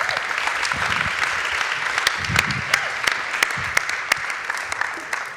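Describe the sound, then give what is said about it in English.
Audience applause welcoming a preacher to a church service, a dense, steady wash of clapping with sharper individual claps popping out across the whole stretch. “No, make some noise. Come on, give him a Heartland welcome. He'll preach better if you shout. Come on, everybody.”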